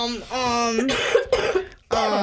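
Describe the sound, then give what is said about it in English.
A few harsh, short coughs from a person, right after a voiced, tonal vocal sound. They are fairly loud and come as uneven bursts. “You can't even cough in peace anymore. I have so much anxiety about coughing in public.”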